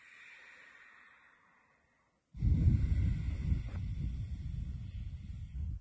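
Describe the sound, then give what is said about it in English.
Ujjayi breathing in and out through the nose, drawn through a narrowed throat: a faint breath at first, then a loud, steady rushing breath that fills the second half, with no talk. “Let your breath start to focus into ujjayi, in and out through your nose. Use the muscles of your throat.”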